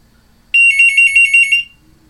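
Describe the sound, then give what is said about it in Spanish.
An incoming telephone call rings with a single bright electronic burst, a rapid high-pitched warbling trill lasting about a second, alone against silence. “La llamada telefónica.”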